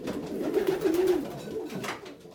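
Pigeons coo in a steady, low, throaty murmur that runs without a break through the whole stretch, over a rough, noisy background.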